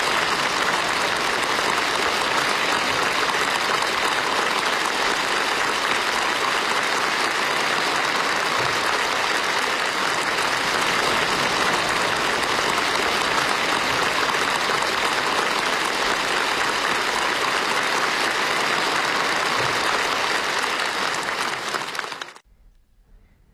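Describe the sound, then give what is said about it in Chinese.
Warm, sustained applause from a large crowd of delegates in a conference hall at a national congress session. The clapping forms a dense, steady clatter for about 22 seconds, then cuts off abruptly. “中华人民共和国中央军事委员会主席时，会场上再次响起热烈的掌声。”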